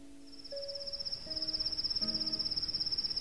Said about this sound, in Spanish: Aquí está. Oh canto del grillo por la madrugada